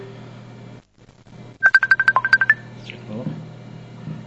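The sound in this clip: Incoming telephone call ringtone: a rapid run of about nine short, even, high-pitched electronic beeps lasting roughly a second. A brief dropout to silence comes before the beeps, and a low hum runs underneath.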